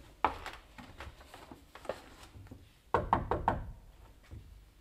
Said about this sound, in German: Sie meint, er wäre noch da. Klopfen wir nochmal.